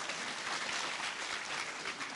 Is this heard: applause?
yes